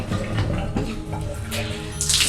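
Water pours and rushes steadily from a hotel-room sink whose drain is clogged with a chamois cloth, spilling over the basin. The flow stays loud and continuous with no breaks.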